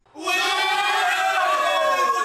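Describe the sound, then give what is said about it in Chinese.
A football crowd cheers at a Yunnan league match, with supporters shouting in the Yi language. A loud, sustained roar of many voices rises quickly and holds a chant-like tone throughout. “欢呼声响起，夹杂在其中的凹凸的加油声是当地的少数民族语言。”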